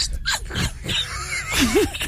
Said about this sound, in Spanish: Ese perro tiene como hambre, ¿vale? Una gripa que tiene ese perro. Tiene hambre, moquillo.